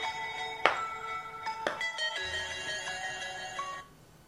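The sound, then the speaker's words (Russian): A mobile phone rings alone with a melodic electronic ringtone, a run of bright tonal notes with a few sharp accents, then fades out near the end. “Прошу прощения, это мой телефон.”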